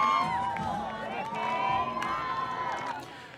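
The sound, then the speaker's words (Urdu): Crowd of President Hassan Rouhani's supporters celebrating his election win in Tehran: a dense mass of shouting, cheering voices, steady and fairly loud, easing slightly at the end. “Tehran میں صدر حسن روحانی کے حامی انتخاب میں ان کی کامیابی پر جشن منا رہے ہیں.”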